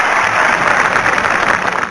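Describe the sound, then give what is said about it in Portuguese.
Loud, dense applause from many hands clapping, a steady crackling wash that holds at an even level from start to finish with no voices standing out. “Batam palmas.”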